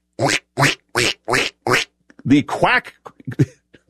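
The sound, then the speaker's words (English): Quacking duck sound effect from a cell phone ringing in a secretary's pocket: five evenly spaced, loud nasal quacks in a steady rhythm, followed by a person talking. “the quacking, was not coming from his mouth, but was coming from his cell phone, and it kept interrupting him. Quack, quack, quack could be heard coming from the secretary's pocket.”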